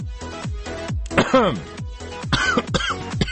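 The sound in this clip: Coughing after choking: a series of harsh, repeated coughs and throat clearing, short strained bursts with a voiced, rasping edge, fairly loud and alone.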